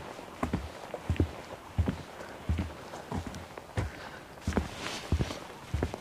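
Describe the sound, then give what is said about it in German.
Footsteps walk along a long wooden boardwalk in a steady, even rhythm, each step a distinct hollow thud on the planks, with many steps in a row. “Ich bin ganz begeistert von diesem Holzsteg, weil er so lange geht hier. Ich glaube, auf so einem langen Holzsteg bin ich noch nicht gelaufen.”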